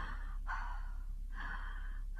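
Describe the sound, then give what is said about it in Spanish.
Deep breaths drawn in and out during a stethoscope examination of a patient with a night-long cough, a few soft, airy breaths following one another with short gaps, faint and with no talking. “Vamos a ver, déjame auscultarte. Respira profundo.”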